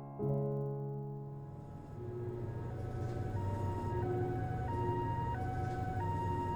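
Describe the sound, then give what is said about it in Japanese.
An ambulance siren wails steadily. Its two tones alternate high and low in a repeating pattern over a low traffic rumble. “あ、救急車。なんかあったのかな。”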